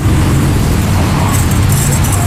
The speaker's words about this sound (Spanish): El ruido citadino no opaca el de su carrito.